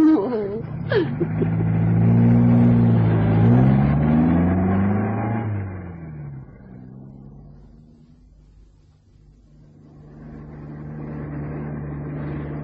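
A car engine pulls away to drive round a corner, giving a steady low rumble that swells, dips through the middle, then builds again toward the end.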